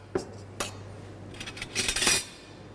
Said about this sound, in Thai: เริ่มจากนะครับน้ำปลานะครับวันนี้เรายำค่อนข้างเยอะเราจะใส่3ช้อนนะครับ